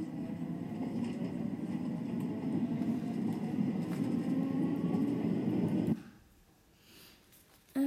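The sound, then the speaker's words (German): A Paris Métro line 6 train rolls with a steady, loud low-pitched rumble and rattling roar that cuts off abruptly, leaving near-quiet followed by a brief thump at the very end. “nehmen wir Metro 6.”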